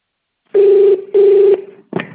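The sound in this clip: Telephone keypad tones from a phone service menu: two steady, equal-length low beeps in a row, followed by a brief click-like burst.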